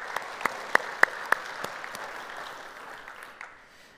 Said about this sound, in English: So if you guys here, if you would, put your hands together. Let's welcome them to our conversation around God's Word.